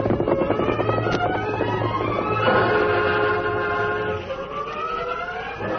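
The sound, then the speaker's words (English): A westbound freight train rolls through town, its sustained, chord-like whistle tones shifting midway over a continuous heavy rumble and clatter that holds steady throughout. “But he came to life when the westbound freight train rolled through town. Well, there goes old 97.”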